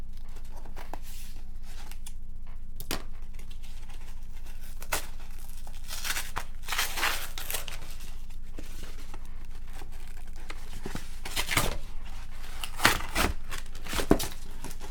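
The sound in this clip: Tearing open a tightly taped-down package: a long run of ripping and crinkling bursts, steady throughout and sharpest near the end.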